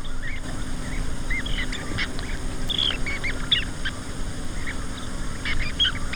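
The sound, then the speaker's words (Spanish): Merlin falcon calls: many short, high-pitched chirping notes repeated at an irregular pace over a steady background hiss. “Un halcón. Y este me gusta mucho. ¿Por qué has puesto un halcón esmerejón?”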